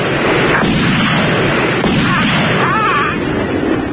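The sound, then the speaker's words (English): Gunfire in a video game: loud, heavy booming shots over a dense, noisy backdrop that stays at full loudness throughout. “Hold on, I think I got my gun again.”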